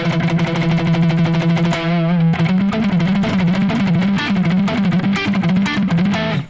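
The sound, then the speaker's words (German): A distorted electric guitar with a vintage shred tone, suited to articulate, percussive picking, first holds a sustained low note. It then moves into rapid picked notes with wide vibrato, loud and saturated throughout. “Ja, das ist ein guter Vintage-Shred-Sound tatsächlich. Also, ich mag ja eigentlich so Sounds fürs Picking, weil du halt da gerade dann sehr den Attack und das Perkussive vom Picking, sag ich mal, sehr durchbekommst.”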